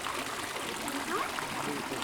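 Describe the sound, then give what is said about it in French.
A feather is drawn through water and picked up through a stethoscope, giving a steady, soft, noisy swishing and trickling rustle that runs unbroken throughout. “Essaye d'écouter le bruit, la plume sur l'eau. Quand j'en sors, écoutez le stéthoscope, si c'est de frotter la plume sur le stéthoscope ou de la promener dans l'eau.”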